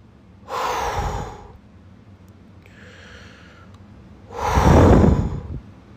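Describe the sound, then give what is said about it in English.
Deep, heavy breathing from one person: two loud, drawn-out breaths about four seconds apart, with a softer breath in between and no talk. “I want to take a couple deep breaths.”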